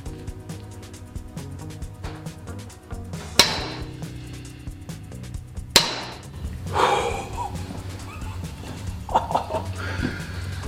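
A 2021 Excalibur TwinStrike crossbow fires two shots. Each is a sharp snap that rings out briefly, a couple of seconds apart, over a low, steady background.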